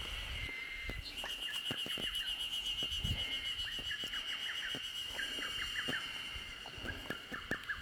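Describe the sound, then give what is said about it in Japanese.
A lesser cuckoo calls clumsily among young maple leaves, giving faint, halting runs of short repeated notes. A steady high-pitched drone of cicadas runs throughout. “なんか下手くそなホトトギス。”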